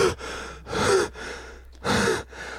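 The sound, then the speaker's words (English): Heavy, labored breathing of someone out of breath after smoking: deep breaths in a steady rhythm, louder gasping breaths alternating with softer ones, with no talk. “I'm running out of breath because I just smoked.”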